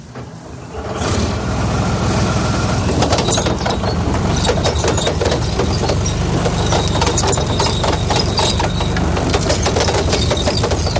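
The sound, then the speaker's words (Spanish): A Spanish army Leopard battle tank on the move makes a loud, continuous roar with dense metallic clanking and rattling throughout. The noise swells in within the first second and then stays steady. “Sinceramente, impresiona escuchar el movimiento de uno de los leopardos de este ejército de tierra.”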